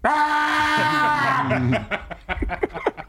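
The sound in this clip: A voice imitates a baseball fan's scream, a loud, sustained, strained high-pitched yell lasting about one and a half seconds, followed by choppy bursts of laughter.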